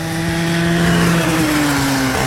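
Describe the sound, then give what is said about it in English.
A go-kart engine drones loudly and continuously as it circles a racetrack at a leisure park, holding a steady buzzing pitch that dips slightly near the end, with no voices. “Burn rubber as you go around the track in a go-kart race.”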